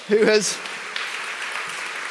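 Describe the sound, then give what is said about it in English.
Audience applause in a church gathering follows a brief spoken voice, a steady patter of clapping at moderate loudness that carries on to the end. “Round of applause for Pivi,”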